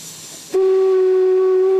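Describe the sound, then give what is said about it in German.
Steam hiss from a 1953-built steam locomotive on a steep narrow-gauge mountain railway, then a loud, steady, sustained whistle that cuts in abruptly and holds one pitch to the end. “Von dort dampft die Lok, Baujahr 1953, hinauf nach Oberwiesenthal.”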